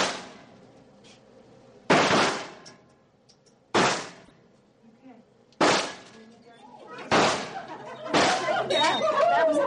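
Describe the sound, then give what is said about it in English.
Five sharp handgun shots fired at a gun club shooting range during a women's gun safety program, each a loud crack with a short decaying tail, spaced roughly one to two seconds apart. “In the morning, the women spend time shooting handguns,”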